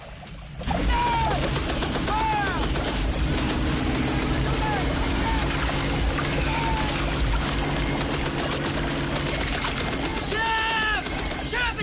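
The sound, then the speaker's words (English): A boat engine revved to full throttle on a river in a film battle scene. A steady, heavy drone holds throughout, overlaid by sharp crackling bursts and brief whistling sweeps. “Phillips revs the boat to full throttle.”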